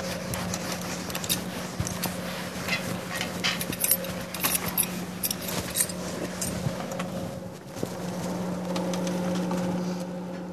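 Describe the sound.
Writing is rubbed off a board with a steady, scratchy erasing sound and many small gritty streaks, running continuously over a constant low hum.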